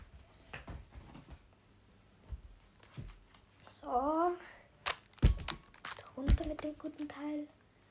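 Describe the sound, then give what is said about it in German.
Rummaging as a Nintendo Switch is pulled out of a backpack: soft rustling, crinkling and a few sharp clicks of handling, with a person talking over parts of it. “Ich muss meine Switch kurz aus dem Rucksack holen.”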